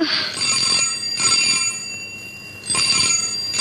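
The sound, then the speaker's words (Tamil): A telephone bell rings in repeated bright, shrill bursts with short gaps between them, loud and clear with no voices. “பாத்தியா, police ஸ்டேஷன்ல இருந்து தான் phone.”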